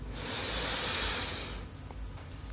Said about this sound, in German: Zweiten tiefen Atemzug und atme ein.